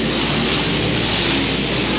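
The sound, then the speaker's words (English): Racing lawn mower engines of the super mower class roar as a heat race starts on the green flag. The engines make a loud, steady, dense drone with no talk. “Green flag and away they go. Heat race number 2 on our program. We are with the super mowers.”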